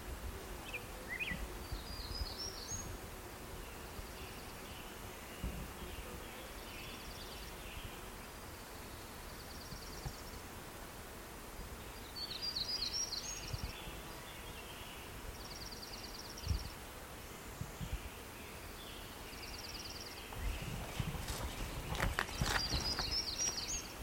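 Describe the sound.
A bird repeats short, high, thin chirps in brief clusters at irregular intervals. The calls are faint over a steady, rough background noise.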